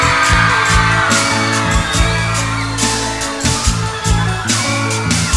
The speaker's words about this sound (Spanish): Y el grito de las chicas.